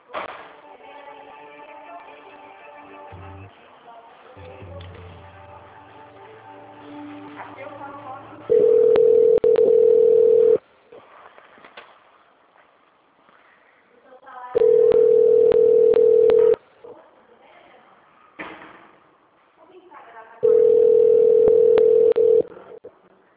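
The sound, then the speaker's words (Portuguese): Telephone tone after a dropped call: three long, steady, mid-pitched tone bursts, each about two seconds, separated by pauses filled with a quieter, busy background. “Eu estou tentando falar no RH, porém ninguém está me atendendo, a ligação está caindo. Vou transferir novamente, só um minutinho.”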